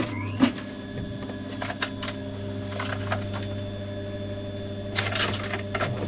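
A sewing machine runs with a faint, steady low hum, with a few light clicks and short mechanical rattles over it.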